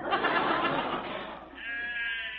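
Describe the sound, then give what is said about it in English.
Sheep bleating while grazing: a couple of loud, wavering bleats, harsh and breathy at first and then turning into a steadier, higher-pitched tone. “seeing them sheep makes me very homesick for my family.”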